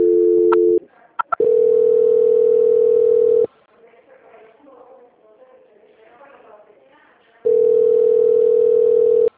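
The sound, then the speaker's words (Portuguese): Steady electronic telephone tones sound while a phone call is transferred. A short tone and a few quick blips lead into a longer sustained tone, then a quieter gap with faint low sound, then the tone returns. “Só mais um minutinho que eu vou fazer a transferência da ligação.”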